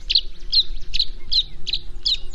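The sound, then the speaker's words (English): A tree swallow over a marsh calls in six short, high chirps at a steady, even pace. Each note is clear and bright against a quiet background. “As a tree swallow swoops gracefully across a marsh, its long slender wings glint a deep iridescent blue.”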